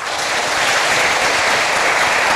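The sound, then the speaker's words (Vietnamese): A big round of applause greets teachers and students at a spring scholarship celebration held at a pagoda. Dense, loud, even clapping continues throughout with no talk over it. “hãy cho một tràng vỗ tay thật lớn để chúc mừng.”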